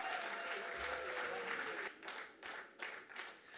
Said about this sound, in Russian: Ваши аплодисменты, дорогие друзья.